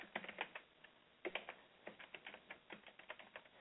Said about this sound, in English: Trying to type too fast, I'm making mistakes.